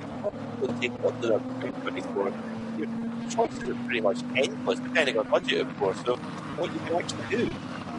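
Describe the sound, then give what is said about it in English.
A BMW M3 Touring pulls slowly into the pit for a driver change during a motorsport race, its engine a steady low drone held for several seconds under continuous commentary. “As the BMW M3 Touring comes in, they'll at 45 degree angle move it around,”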